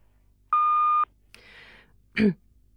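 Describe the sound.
Hotel reception answering machine gives a single steady, mid-pitched beep lasting about half a second, followed by a soft breathy sound and then a brief low vocal noise, with no words spoken.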